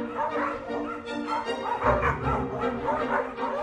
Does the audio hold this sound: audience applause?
no